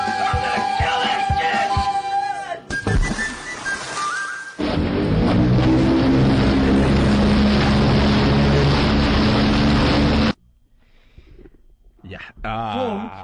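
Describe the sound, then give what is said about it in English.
A motorboat engine runs on water with a loud, steady, buzzing drone and a strong harmonic hum that holds for several seconds, set between other brief sounds before and after. “Great motorboard. That's a great sound clip at the end. That is a good motorboard.”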